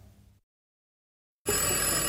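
A telephone bell rings in one loud, steady, bright burst that starts abruptly after a short silence and lasts to the end.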